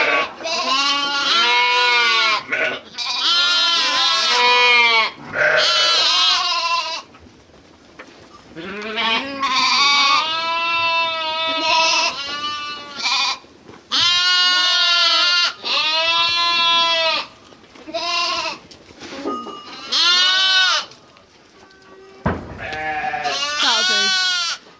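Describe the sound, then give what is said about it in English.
Lambs bleat in many loud, wavering, quavering calls that come in quick bursts, with short pauses between them. “Now, we've got a video of lambs.”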